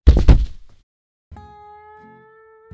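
A toaster strikes a man's head as a sound effect: a heavy double thunk, then a short silence and a sustained, steady ringing tone that lingers to the end.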